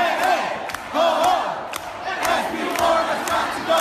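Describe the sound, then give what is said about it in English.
Protesters in red shirts chant and cheer in the House gallery, a crowd of voices rising in repeated loud surges with rhythmic shouted bursts. “So the protests spilled into the House gallery. Protesters in red shirts, they chanted, cheered, and unfurled a big banner that said, "We'll see you in court."”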